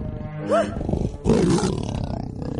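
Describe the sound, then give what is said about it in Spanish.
A tiger roaring in an animated prehistoric adventure film: a short, higher, strained vocal cry, then a louder rough, growling roar that fades into a low rumble, with no talk. “El tigre se acerca despacio.”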